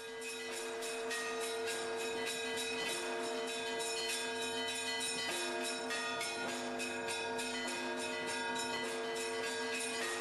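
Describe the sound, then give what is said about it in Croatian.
Russian Orthodox church bells peal continuously in a dense, steady run of rapid strikes over sustained ringing tones, with no pause or voices throughout. “Ovako se zvoni u ovoj zemlji u kojoj postoje i posebne škole u kojima se uče tehnike zvonjenja.”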